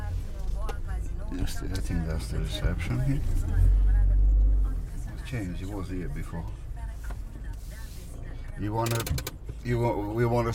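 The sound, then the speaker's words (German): A taxi turns on a small forecourt and drives away, with a low engine rumble that swells for a moment before easing off. Voices run over the vehicle sound throughout. “Dan wendet das Taxi auf dem kleinen Vorplatz und fährt davon, zurück nach Bistritz.”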